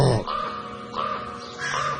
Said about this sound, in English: a raven's above their head and it gives that incredible deep, I can't even do it